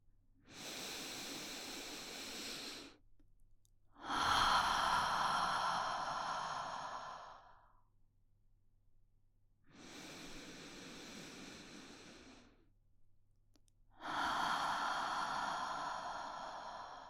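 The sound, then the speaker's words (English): Slow deep breathing: four long, airy breaths, each lasting about three seconds and separated by short pauses, with the second and fourth breaths louder and more forceful than the others. “I want you to take a nice deep breath with me.”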